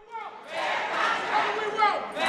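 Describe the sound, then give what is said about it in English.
Chicago teachers in red union shirts and their supporters chant for a fair contract in the lobby outside the mayor's office. A crowd of voices rises in loud, repeated shouted bursts that swell and ebb. “Chanting for a fair contract, a crowd of Chicago teachers in red union shirts joined with supporters and filled the lobby in front of Chicago Mayor Rahm Emanuel's office.”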